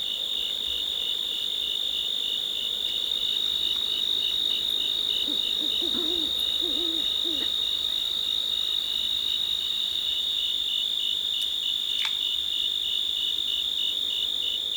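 Insect chorus with an occasional bullfrog in the Cascade Mountains of Northern California: a steady, high-pitched insect drone runs throughout, and a brief burst of low croaks breaks in midway.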